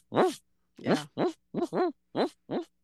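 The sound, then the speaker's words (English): A human voice imitates a barred owl's call: seven loud, throaty hooting barks in an uneven rhythm, some in quick pairs, with nothing else audible. “barred owls are in the mix, mm-hmm, and they kind of sound like a distant barking dog sometimes, like,”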